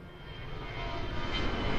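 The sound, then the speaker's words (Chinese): Steady engine roar of an airliner in flight between Beijing and Guangzhou, a broad, even rumble that swells slightly louder toward the end, with no voices. “从北京到广州飞行时间不到三个小时”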